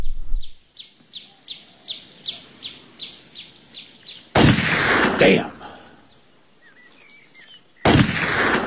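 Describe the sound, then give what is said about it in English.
Gunshots fired at playing cards: a few loud, sharp blasts with ringing tails, following a stretch of steady, rhythmic high chirping. No one speaks. “What are you shooting at? Playing cards. I used to could split them at 30 paces. Stop wasting powder.”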